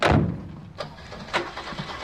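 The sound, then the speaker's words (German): Engines of a three-ton truck and cars starting up at night before driving off without lights. A loud low rumble at the outset settles into a steadier running sound, punctuated by a few sharp mechanical clunks. “Die Motoren werden angelassen und die drei Wagen fahren ohne Licht davon.”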